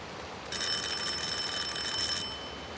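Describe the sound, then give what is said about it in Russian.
A doorbell at a house in a suburb rings in heavy rain, giving one shrill, continuous ringing tone just under two seconds long over steady rain noise. “Стоя под проливным дождем, я при тусклом свете фонаря отыскал под фамильной дощечкой звонок и нажал кнопку.”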